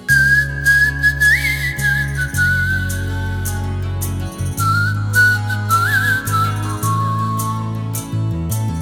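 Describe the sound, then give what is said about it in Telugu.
Someone whistles a tune, a clear, bright melody with smooth slides between held notes, played over low, sustained backing tones that shift in steps. “ఇప్పుడు విజిల్తో నేను tune ఇస్తాను, నువ్వు దానికి పాట పాడాలి, సరేనా?”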